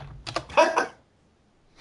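Someone types a web address on a computer keyboard: a short run of a few quick, light clacking keystrokes, then near silence.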